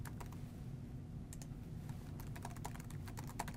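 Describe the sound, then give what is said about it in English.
A team name is typed on a computer keyboard: many quick, soft key clicks run in an irregular stream over a low background hum, with no talking. “I'm just going to type the team name here, and we'll just call it Test Team.”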